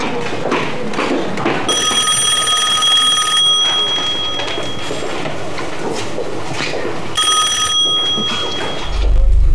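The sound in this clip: A telephone rings with a bright, shrill electronic trill: a long ring of nearly two seconds, then a shorter burst later, over a busy background.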